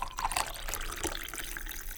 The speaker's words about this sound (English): But the best part of the process is pouring a cup of coffee